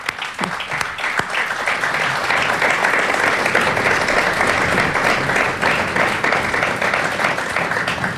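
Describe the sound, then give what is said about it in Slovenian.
Audience applause for an artist at a ceremonial gathering: dense, sustained clapping that holds at an even, fairly loud level for about eight seconds, with a few sharper individual claps near the start. “draga umetnica, in aplauz za to.”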